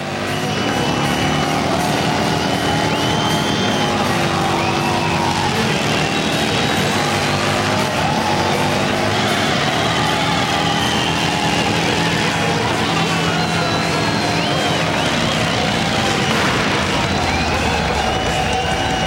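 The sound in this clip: A motorcycle does a burnout at a warehouse party, its engine revving hard in a continuous loud roar mixed with tire squeal, while a crowd cheers and shouts throughout.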